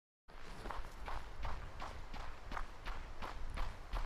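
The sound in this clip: Footsteps of someone running on grass: a steady, quick rhythm of many soft thudding footfalls, evenly spaced and continuous throughout.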